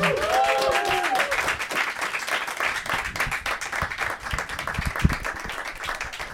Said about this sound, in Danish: Øh, giv en rigtig stor hånd til Jakob Svendsen og Kasper Lefebvre.